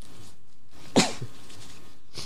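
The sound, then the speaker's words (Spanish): One sharp sneeze from a Spanish-speaking radio host suffering an allergy, a brief explosive burst that stands out against an otherwise quiet background. “Perdonen ustedes, pero es que se ve que tengo alergia y llevo una mañana terrorífica estornudando, y por eso puede que haya más de una interrupción.”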